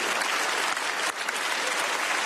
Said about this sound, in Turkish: Bu sözlerin ardından von der Leyen ve Kanada Başbakanı Carney ayakta alkışlandı.